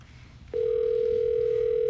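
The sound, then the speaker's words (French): A telephone line starts ringing after a number is dialed: a steady single-pitched tone begins abruptly after a brief pause and holds loud and unbroken to the end. “Le numéro de téléphone. Bon, voilà, voilà. Alors, c'est fait. Et ça sonne.”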